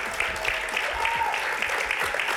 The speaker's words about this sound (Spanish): no aplaudáis tanto así, así.